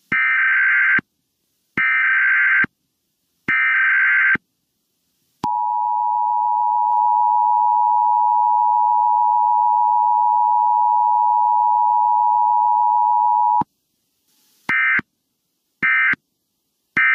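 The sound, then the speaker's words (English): National emergency alert test tones as sent to radio, TV and cell phones: three short, loud, buzzy bursts, then one long steady mid-pitched tone lasting about eight seconds, followed by a few more short bursts. “Every local radio and TV station in the country will broadcast the test, and every cell phone in the U.S. will receive it as well. It will sound something like this.”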